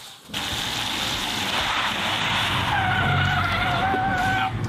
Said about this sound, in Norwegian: Dette blir eh, første drifting. 585 hestekrefter.